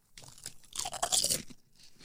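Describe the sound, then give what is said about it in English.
Sturdy, intact foreign-made Lay's potato chips crunch crisply as they are bitten and chewed: a few sharp bursts build to a denser crunch in the middle, then trail off into faint chewing with no talk. “Foreign Lay's much sturdier than American Lay's. The chip itself.”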